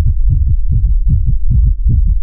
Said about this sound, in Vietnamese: Lại một trận tiếng tim dồn dập truyền đến, chiếc chìa khóa màu máu này dường như hô ứng với chị lúc trước, cả hai bắt đầu cùng đập như trái tim.